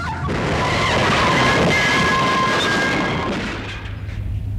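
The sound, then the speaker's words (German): Truck skidding onto the pavement toward a wall during a chase: a loud, continuous rushing roar with thin squealing tones running through it, easing slightly near the end. “LKW versucht auszuweichen. Rast auf Bürgersteig. Streift Laterne. Auf eine Mauer zu.”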